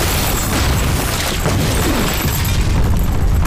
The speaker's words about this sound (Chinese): 下炸弹，小心炸弹。